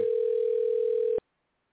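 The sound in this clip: Telephone dial tone heard while a call is being placed: a steady, unbroken single-pitch hum that holds for just over a second, then cuts off abruptly into silence.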